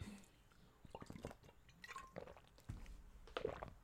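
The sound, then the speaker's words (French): Sips and swallows of water from a drink, a few faint soft wet gulps and small liquid clicks spread over a few seconds, quiet and close. “Je bois un petit coup d'eau et je te raconte ça, ne bouge pas.”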